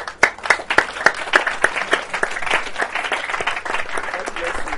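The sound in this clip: A church audience claps during a sermon: a few sharp, separate claps open it, then they merge into continuous, lively applause that stays fairly loud, with voices mixed in.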